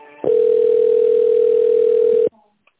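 A telephone tone while a call is being transferred: a single long, steady mid-pitched beep lasting about two seconds, loud and alone, ending abruptly.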